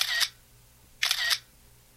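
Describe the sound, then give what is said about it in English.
A smartphone camera plays its synthetic shutter sound in two bright, crisp bursts about a second apart, and a third begins just as the sound cuts off. “The advent of smartphones, one of which is responsible for that cute shutter sound you just heard”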